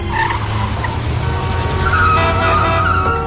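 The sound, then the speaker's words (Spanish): Tires screech as a car skids and swerves through a red light past other cars in traffic. A loud, continuous squeal over engine noise lasts about three seconds without a break. “Iván se salta el semáforo y gira esquivando dos coches. Trevor mira el semáforo en rojo. ¡Vamos! Se lo salta.”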